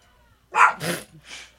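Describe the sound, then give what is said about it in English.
Dogs barking at home, a few loud, rough barks in quick succession after a brief silence. “Oh, sorry if you hear some dogs barking.”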